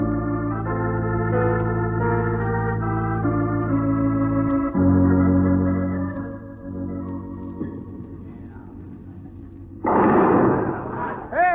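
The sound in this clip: Bowling ball strike knocking down pins, a single brief loud clattering crash near the end that follows a long stretch of sustained musical tones.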